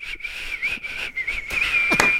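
A person whistles a tune alone, a clear, fairly high tone held in a string of notes broken by brief gaps, the pitch staying nearly level with slight wavers.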